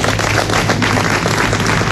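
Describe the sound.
Audience applause for a very old man, a dense, steady wash of many hands clapping that blurs into continuous noise with no separate claps standing out and no talk over it.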